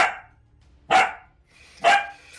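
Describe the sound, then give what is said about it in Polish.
A small dog barks with sharp, high, yappy barks about a second apart, loud against a quiet background. “Co za bydle małe, po prostu nieznośne tutaj szczeka.”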